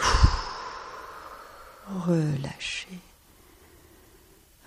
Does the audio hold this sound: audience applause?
no